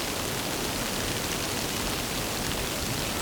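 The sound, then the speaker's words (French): Light, scattered rain falls on a pile of leaves beside a ditch, making a soft, steady, even hiss with no distinct drops standing out and no voices. “Une fine pluie éparse s'écoule.”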